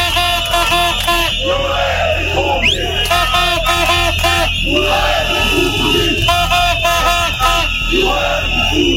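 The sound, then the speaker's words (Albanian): Protesters chanting calls for resignation outside a government building on the sixteenth day of a protest: a loud crowd repeats rhythmic, yelled chants over a continuous murmur of many voices. “Ditën e 16 të protestës para kryeministrisë vijuan thirrjet për dorëheqje. Protestuesit u mblodhën para godinës së Këshillit të Ministrave në thirrjet Ramaik.”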